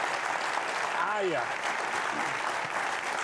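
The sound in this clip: Studio audience applause welcoming a guest onto a TV talk show: dense, steady clapping throughout, with a brief voice rising over it.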